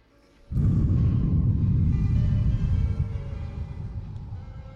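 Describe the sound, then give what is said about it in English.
A deep breath drawn in hard right into a microphone for a breathing exercise starts abruptly. It becomes a loud, rushing, rumbling gust that lasts about four seconds and eases slightly toward the end. “Breathing exercise. Ah, calm and meditative. Breathe in.”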